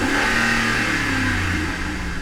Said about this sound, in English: I'm brake boosting it in first gear with traction control off, and it's not spinning.